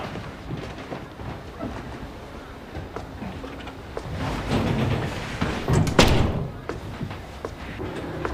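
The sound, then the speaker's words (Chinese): A door shuts with one heavy thump in an office, rising briefly out of a steady low rumble that carries on around it; no voices are heard. “到我办公室说吧。把门关上。”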